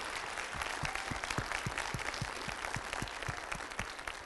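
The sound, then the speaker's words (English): A church audience applauds at an evening service to welcome guests, producing steady, even clapping with a regular beat that holds at a moderate level throughout. “I'd like to ask you to put your hands together and make our guests feel especially welcome this evening.”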